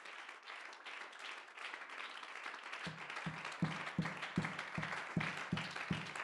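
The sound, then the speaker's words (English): An audience claps hands in church during a Sunday praise service. A soft crowd murmur comes first, then about halfway through many hands fall into steady, evenly spaced claps in time, fairly faint overall. “Oh, would you clap your hands to the Lord?”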